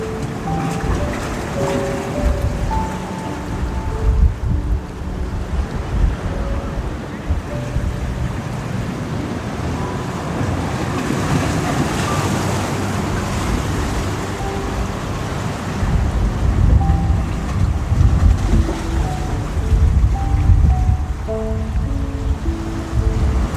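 Rushing water and breaking waves make a continuous roar, swelling louder around five seconds in and again toward the end, with a broad, gusty rumble throughout.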